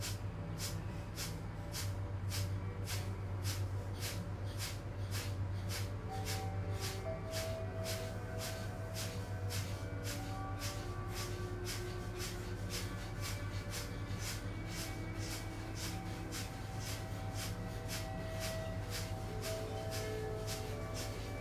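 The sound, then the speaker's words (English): Rapid, forceful exhalations pumped from the abdomen in kapalabhati (shining skull breath) yoga breathing, repeating in a steady, even rhythm of many short breathy bursts over sustained background tones. “it consists of quick abdominal pumps. And we'll take a nice deep breath in. And as you exhale, I'm going to pump the abdomen like so.”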